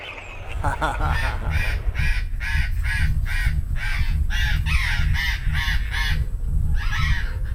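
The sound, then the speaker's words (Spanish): Parrots calling outside at dusk: many raucous, harsh squawks in quick repeated bursts, loud and continuous over a steady low rumble. “Estoy acá escuchando a los loros, porque esta es la hora que los loros se van a dormir, ¿viste?”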